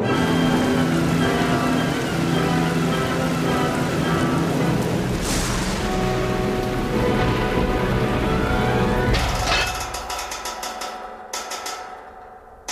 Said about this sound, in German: Der Himmel fällt vom Himmel, sozusagen, in Flächen. Darum schiebt es ja die Luft so brutal über die Felder. Regenflächen. Wie Bettlaken.